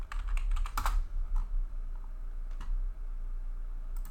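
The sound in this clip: Fingers type on a computer keyboard in a quick flurry of clicking keystrokes at first, then slow to just a few isolated key taps over a faint steady background, with no voices.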